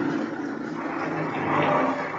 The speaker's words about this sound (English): Mud. The wheels won't hold. You're just digging it in deeper.